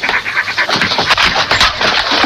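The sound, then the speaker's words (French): Dogs panting loudly and steadily, with quick breathy puffs running continuously for the whole stretch and no talk. “Approchez, ils sont pas méchants. Avec mes chiens et mes uniformes, vous êtes la patrouille.”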